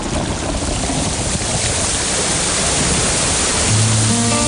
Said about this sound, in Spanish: ¡Ya viene la lluvia!